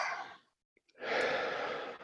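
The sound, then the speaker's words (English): A deep breath drawn in through the nose and then released through the mouth: a short, soft airy inhale, a brief pause, then a longer, louder breathy exhale, with no talking. “Take a big breath in through your nose and then breathe it out through your mouth.”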